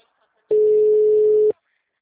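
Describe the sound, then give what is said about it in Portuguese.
A telephone ringback tone on an outgoing call: one steady, mid-pitched electronic beep lasting about a second, loud and clean, with silence before and after. “Tô ligando.”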